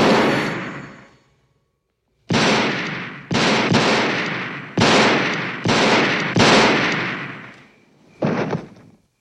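Loud gunshots ring out in an irregular series: one shot's tail fades into a second of silence, then many more sharp blasts follow, some close together, each trailing off in a long decaying echo.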